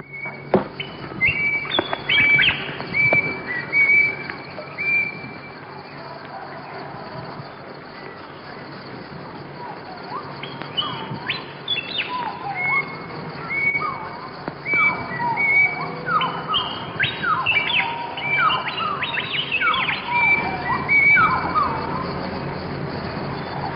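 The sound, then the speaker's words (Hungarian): Wood pigeons coo among other unusual bird calls in New Guinea. The dense chorus of many chirps, whistles and trills runs unbroken throughout over a steady background hiss. “az itteni vadgalambok különös, egzotikus búgását, és a többi különleges madárhangot”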